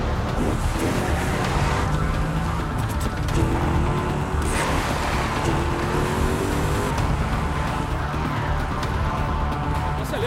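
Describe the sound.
A car engine roars during a chase, loud and continuous, with dense road and wind noise and faint engine tones running through throughout.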